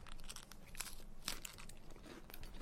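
Faint crisp crunching from biting into a flaky mille-feuille cookie with white chocolate, with a few sharp brittle snaps and crinkles scattered over a soft, continuous rustle.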